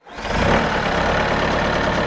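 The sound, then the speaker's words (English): A small tractor with a front shovel runs steadily while scooping chunks of sandstone on hilly ground in western Pennsylvania. Its engine gives a loud, even, rumbling drone from start to finish. “A small tractor with a shovel on its front end scoops up chunks of sandstone to cart across the hilly terrain at North Foundry Park in western Pennsylvania.”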